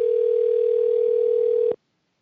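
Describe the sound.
A telephone dial tone sounds during a call that no one answers: one steady, unbroken electronic hum at a single pitch, held for under two seconds before it cuts off abruptly into silence.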